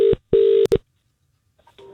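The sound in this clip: A telephone being dialled, with a few electronic keypad tones of uneven length separated by short gaps, then a pause before another tone starts.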